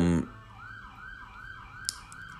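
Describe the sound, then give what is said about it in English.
A police car siren wailing as the car speeds past at high speed, a wavering tone that rises and falls in a steady repeating cycle, fairly faint over low background noise. “Cop going by at 100 miles an hour with the sirens blaring.”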